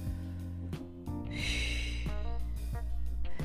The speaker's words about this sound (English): I'm going to be relaxing. I'm going to take another deep breath.